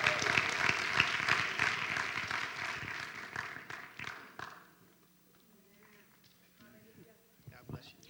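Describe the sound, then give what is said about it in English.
Audience applause welcomes a speaker at a gathering led by a bishop. Dense, loud clapping runs for about four seconds, then thins and fades away into near quiet. “Let's put our hands together. Let's welcome Teresa Jones as she comes.”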